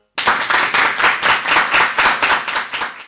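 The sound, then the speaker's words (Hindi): Audience clapping for a child's poetry recital at a school event: loud, evenly pulsing applause with many strong, regular beats, as if the crowd claps partly in unison, sustained throughout and stopping abruptly at the end. “तालियां आपके लिए।”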